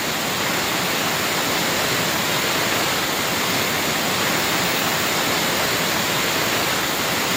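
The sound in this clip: Waterfall roar at the Salto del Nervio after heavy rains: a steady, loud, dense rush of falling water that holds unchanged throughout, with no voices or other sounds.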